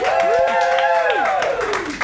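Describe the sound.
Audience applause and cheering added in post-production, a continuous clatter of clapping with a loud sustained voice shouting over it.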